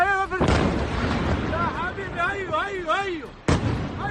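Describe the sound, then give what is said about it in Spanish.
Bombs explode during a night-time Israeli air strike on Iran: a loud blast, a sustained rumbling roar, then a second sharp blast near the end, with voices rising and falling in between. “Este es el sonido de las bombas.”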